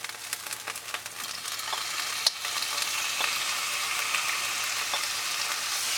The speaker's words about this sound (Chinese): 爆香的时候呢，我们就可以把虾仁丢下去哦。